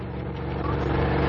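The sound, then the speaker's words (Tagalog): A jeep's engine runs with a steady, low, rumbling drone that grows slightly louder over the short stretch. “nanay ang jeep nila ni Miss Irish”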